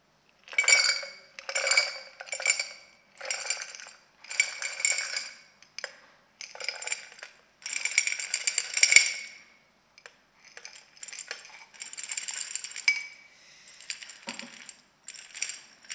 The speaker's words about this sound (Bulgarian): Сега ще се опитаме тези малки камъни да ги сипем в буркан. Да видим дали ще се получи.